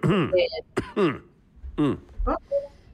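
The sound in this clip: A man clears phlegm from his throat in a few short, gravelly, voiced bursts with brief pauses between them.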